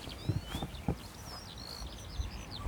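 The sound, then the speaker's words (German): A skylark singing outdoors, a faint, steady stream of thin high chirps and trills over low background noise and a few soft thumps. “Nein, Lerche. Das ist eine Lerche.”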